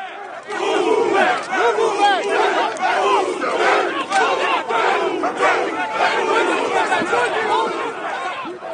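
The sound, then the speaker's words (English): Protesters clash with police outside an Israeli consulate during a convention. A large crowd shouts and chants loudly, with overlapping voices rising and falling in a constant, agitated din. “Here's the sound of protesters clashing with police outside the Israeli consulate.”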